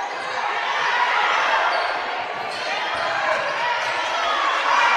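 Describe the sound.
A basketball dribbled on a court during a game, its repeated bounces running under a steady wash of crowd noise.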